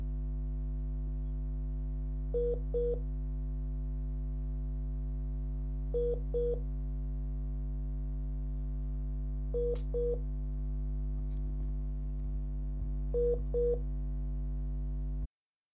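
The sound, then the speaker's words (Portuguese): Telephone tones play while a return call is being placed. Four pairs of short, level beeps come at even intervals over a steady low hum, and the sound cuts off abruptly at the end. “Vamos ver se a gente consegue retornar aqui a ligação aqui com o mestre.”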